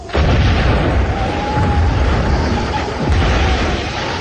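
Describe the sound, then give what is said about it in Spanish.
A muffled explosion sounds as a loud, dull boom that runs into a dense, sustained rumbling roar lasting a few seconds, with no voices over it. “La sorda explosión confirma los peores miedos.”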